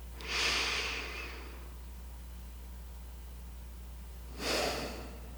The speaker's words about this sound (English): and a slow breath in and a calming breath out.